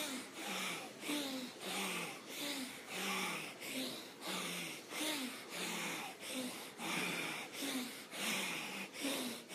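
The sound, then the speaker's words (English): Rapid rhythmic breathing during a breathwork exercise: a long, steady series of quick, forceful breaths at an even pace, faint and alone. “Pick up the pace and the intensity of your movement and breath.”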